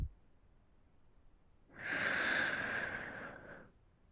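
A deep breath drawn in: one long, breathy inhalation lasting about two seconds, soft and heard alone between stretches of quiet.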